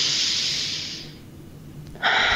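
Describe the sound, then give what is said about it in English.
A deep breath drawn in and let out, first a long airy rush that fades over about a second, then a short pause before a second loud burst of breath starts abruptly. “So first, I just want everyone to take a deep breath with me,”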